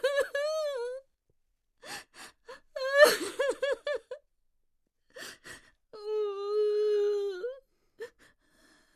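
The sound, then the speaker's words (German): A trembling woman sobbing and weeping in a radio drama, high, wavering wails broken by gasping breaths and short whimpers, ending with one long, drawn-out cry. “Diese bebende, schluchzende Frau, die mich schüttelt und mich anschreit.”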